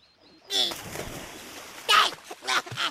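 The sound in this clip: Water splashes as someone jumps into a swimming pool during a swim lesson, with a few bursts of splashing and sloshing mixed with people talking.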